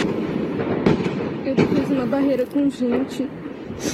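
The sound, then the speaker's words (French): Automatic gunfire during a bank robbery in Araçatuba, Brazil: sharp cracks and rapid bursts over a constant noisy background, with a person talking in the middle of the shots. “une ville moyenne en plein cœur du pays qui s'est donc réveillée il y a deux jours au son des armes automatiques.”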